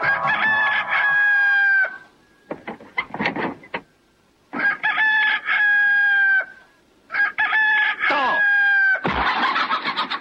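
A rooster crowing at dawn: three long, loud, drawn-out crows, separated by shorter scratchy bursts and clucking sounds, and ending in a harsh noisy burst.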